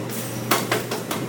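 Sharp clinks and clatters of pots and utensils in the kitchen of Nixta, a taqueria, as a chef prepares a signature dish; a few distinct metallic knocks ring out over a steady low background hum.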